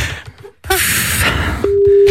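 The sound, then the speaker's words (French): A telephone call tone follows the dialing of a number. After a short burst of hiss, a single steady low tone starts and holds to the end. “on l'appelle tout de suite, on compose son numéro de téléphone”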